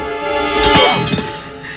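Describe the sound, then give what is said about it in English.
A sword blade snaps as it strikes a creature's back: one loud, bright breaking crash with glassy, ringing tones mid-clip, over a steady sustained drone. “The blade snaps on impact.”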